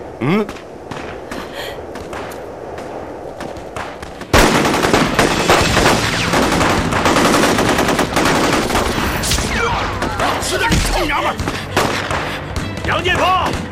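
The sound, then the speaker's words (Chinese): Gunfire erupts abruptly after a few quieter seconds and continues as loud, sustained rapid bursts, with dense cracking shots layered through to the end. “别开枪，老子知道你厉害，你不会为了立功连自己女人都不顾了吧？ 停止射击。”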